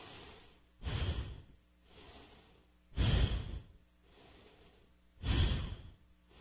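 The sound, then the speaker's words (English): Deep breathing exercise through the mouth, inhaling and exhaling without pauses: three loud, rushing breaths alternate with two softer, quieter breaths in a slow, even rhythm. “So I'm pulling on the inhale, relaxing on the exhale.”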